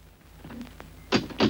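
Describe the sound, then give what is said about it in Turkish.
A door being opened at home: two sharp, solid thuds close together near the end, preceded by a few faint knocks and rattles over a low background hiss. “Kürolası babanız geldi. Koşun kapıyı açın.”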